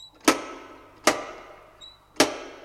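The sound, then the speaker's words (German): A wrought-iron door knocker strikes a gate three times, each a sharp, loud metallic knock with a short ringing decay, spaced about a second apart. “Durchaus nicht mutig, aber todmüde bewegte ich am Tor einen schmiedeeisernen Türklopfer.”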